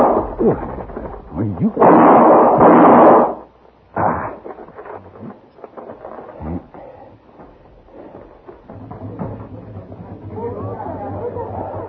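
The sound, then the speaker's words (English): A gunshot in a radio drama, a loud, broad blast that booms for over a second, then drops to lower, irregular background noise and rustling. “Somebody took a shot at me. They ran down that alleyway.”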